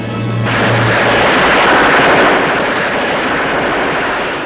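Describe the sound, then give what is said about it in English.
Heavy machine gun firing in a sustained, dense burst that roars loudly for several seconds without a break, with no voices present. “He turns quickly to see a heavy machine gun being set up. He stares as the soldier adjusts the ammunition belt.”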